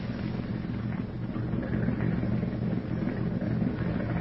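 A motorboat engine running: a steady, continuous low rumble that holds an even level throughout, with no voices.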